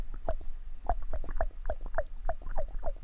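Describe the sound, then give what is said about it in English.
A voice imitates cow elk calls using the tongue: a quick series of short, high, chirping mews repeated at a fairly even rhythm, with no talk in between. “once you get an elk's attention, don't you think he can't hear this at 175 yards? Oh, he hears it.”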